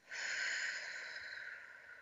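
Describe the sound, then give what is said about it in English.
A soft, airy breath in a guided exercise of breathing in through the nose and out through the mouth, heard as one steady, quiet hiss lasting about two seconds. “let's take a breath in through your nose, out through your mouth,”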